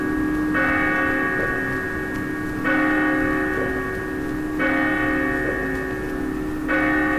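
A loud church bell tolls four times, each strike roughly two seconds apart, with a bright metallic ring that hangs and hums between strokes.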